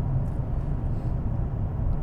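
Steady low rumble of a car driving along an empty road, a continuous engine and road noise that stays even throughout with no voices.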